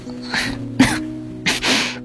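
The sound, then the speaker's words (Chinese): A cough from a feverish person with a sore throat, muffled by a blanket held to the mouth: a few short, breathy bursts over a soft, steady background tone. “他说着，用毯子遮住嘴角，咳了一下。”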